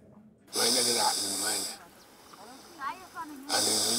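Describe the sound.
Harsh, airy hissing of a man with throat cancer breathing and voicing through a tracheostomy pipe, loud rasping bursts broken by a quieter gap with short wheezy sounds.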